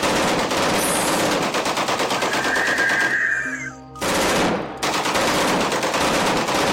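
Machine gun fire in a battle, a loud, dense stream of rapid shots that breaks off briefly midway and then resumes just as heavily.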